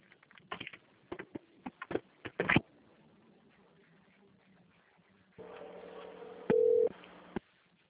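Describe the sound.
Ringback tone of an outgoing phone call, heard through a narrow telephone line. A quick run of sharp clicks comes first, then a steady low hum that lasts about two seconds and ends abruptly.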